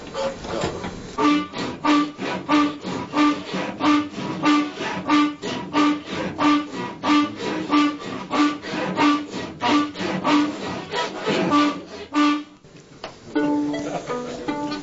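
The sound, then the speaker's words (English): French horn bells scraped along a floor give a loud series of rasping, grunting strokes in a steady rhythm, with faint tones threaded through. The strokes break off near the end. “it was the French horn players taking the actual bells of their instrument and scraping it along the floor to create these weird grunting noises”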